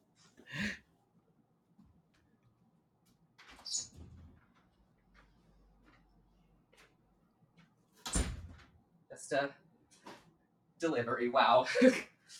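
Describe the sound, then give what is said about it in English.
A loud knock sounds on a door, heard as a few sharp, isolated bursts spread out between stretches of near silence, with a voice talking alongside. “that was a loud knock. Sorry.”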